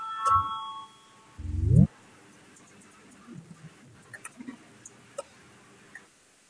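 A bell rung to call a parliamentary vote: a brief ringing ding with a low thump, followed by a short, louder rising tone, then a few faint clicks and taps.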